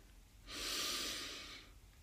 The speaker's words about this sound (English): I want everyone to take a deep breath in through their nose